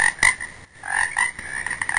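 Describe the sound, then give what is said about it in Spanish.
Toads croak in a dense, steady chorus of raspy, overlapping calls that pulse without a break. No voices are heard. “¡Ojo con los sapos! ¡Están en todo el lado!”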